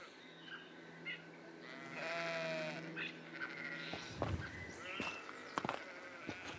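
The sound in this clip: Sheep bleat faintly among grazing flock animals kept to crop the grass by a house along a walking trail. One drawn-out, wavering bleat stands out, with scattered shorter calls and rustling around it.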